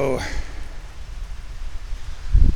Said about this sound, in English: And it's starting to rain hard. I can actually see water. I can hear the rain pounding on the roof of this pavilion,